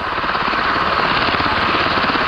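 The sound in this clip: Helicopter noise: a loud, continuous, dense roar with a faint rapid pulsing, heard alone without any speech.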